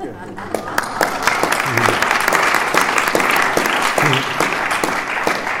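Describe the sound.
Audience applause welcoming two speakers at a meeting on step three: steady clapping from many hands, loud and continuous for about six seconds.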